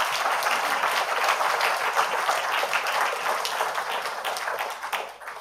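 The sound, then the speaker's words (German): Audience applause rings out at a university event honoring work for democracy and human rights. Dense, even clapping runs throughout and tapers off at the very end. “Vielen Dank. Applaus”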